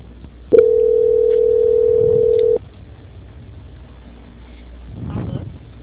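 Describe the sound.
A telephone tone during a call transfer: one loud, steady, mid-pitched tone held for about two seconds, which cuts off abruptly and leaves quiet line noise behind.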